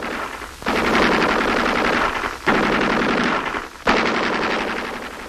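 An enemy machine gun fires three long, rapid bursts, each a dense loud rattle, separated by brief pauses.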